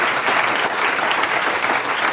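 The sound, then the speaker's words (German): Audience applause fills the whole stretch, a dense, steady wash of many hands clapping at an even, loud level with no break and no voices standing out. “Also, den Applaus haben Sie sich verdient.”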